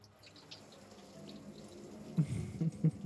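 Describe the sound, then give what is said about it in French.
Shower water running in a steady, faint hiss that builds slightly, with a few louder splashes near the end. “Bref, direction la douche.”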